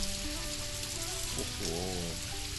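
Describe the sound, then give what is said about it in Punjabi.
Rain falls steadily in a constant, fairly quiet hiss, with faint tonal sounds over it. “ਹੁਣ ਮੈਂ ਘਰ ਕਿਵੇਂ ਜਾਵਾਂਗਾ, ਇਹ ਬਾਰਿਸ਼ ਫਿਰ ਸ਼ੁਰੂ ਹੋ ਗਈ ਹੈ।”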